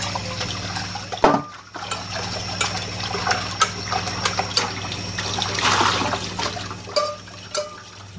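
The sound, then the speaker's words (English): Tap water runs and splashes while a pot used for storing food is rinsed out in a kitchen, a steady hissing flow with brief knocks and shifting splashes throughout. “Meanwhile, I'll rinse out this pan, this pot that I was storing that stuff in.”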